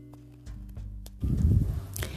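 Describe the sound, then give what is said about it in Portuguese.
Horse-drawn carriage departing: a few light hoof clops and clicks, then a louder, rolling rumble as it moves off. “As três saíram sem olhar para trás, entraram na carruagem e partiram imediatamente.”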